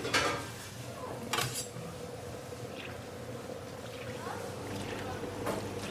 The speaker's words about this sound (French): Une commande de samoussa viande et donc je viens de finir de les plier et je suis en train de les cuire.